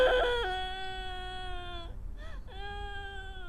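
A baby boy crying in drawn-out wails: one long sustained cry, a brief break with a short whimper, then another steady wail. The cry is moderately loud and heard alone.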